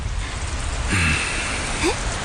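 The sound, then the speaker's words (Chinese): Steady hiss of rain falling in Kunming, a continuous even patter that lasts the whole moment. “下雨了，昆明这个地方真是风调雨顺。”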